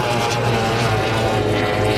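A racing powerboat in a Formula 1 boat race speeds past on the water, its engine a loud, dense, unbroken roar that fills the whole short clip with no voices.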